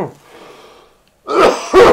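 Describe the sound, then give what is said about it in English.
Coughing after inhaling from a cannabis vape of whole-plant extract: a faint breathy exhale trails off into a short silence, then two harsh, loud coughs follow in quick succession. “It's got me coughing, got my glasses fogged up.”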